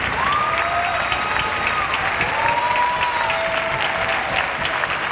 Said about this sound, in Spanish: Y quiero que recibamos con un fuerte aplauso a Waldito Mendoza, Waldo Mendoza Jr.